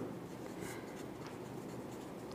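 Faint, continuous scratching of handwriting as a quote is written into a book. The strokes are soft and steady, with no voices.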